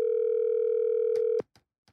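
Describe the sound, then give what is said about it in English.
A steady telephone dial tone hums for about a second and a half while a call is being dialed, then cuts off into a few short, sharp clicks. “I'm going to dial the number up.”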